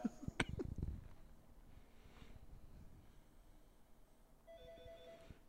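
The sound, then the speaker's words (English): A telephone rings in the film Trespass: a short electronic ring tone comes near the end. It follows a few sharp, loud knocks and throaty noises at the start and a stretch of quiet. “Uh-oh, it's the phone.”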